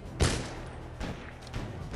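A musket gunshot in a musketeer-themed video game rings out as one sharp, loud blast, followed by a couple of softer thuds or bangs.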